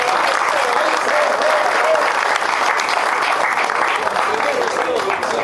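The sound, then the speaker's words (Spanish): Loud, sustained audience applause for a pastor at an awards event, thick overlapping clapping that holds at a steady level throughout. “Eduardo Morelo, un aplauso para Eduardo Morelo por todo el caso.”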